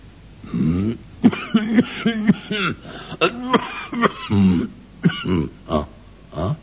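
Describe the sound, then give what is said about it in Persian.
A man coughs and clears his throat in a run of rough, voiced bursts with grunting, chuckle-like tones, repeated many times at fairly even loudness with no speech. “ولی بعد سرفه ای کرد و گفت”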